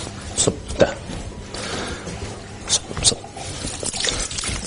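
Water is poured over a deceased body during ritual washing: a loose, continuous trickle and splash with a few sharper spills scattered through it, moderately loud.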